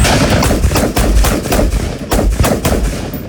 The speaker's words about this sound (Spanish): Entre ellas, prácticas de tiro con armas de grueso calibre.